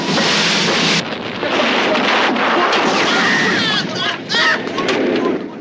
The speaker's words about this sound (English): The bow of the Maxim Gorky turns, torpedoes home in. The Maxim Gorky is hit, the stern bursts into flame, men are thrown by the blast.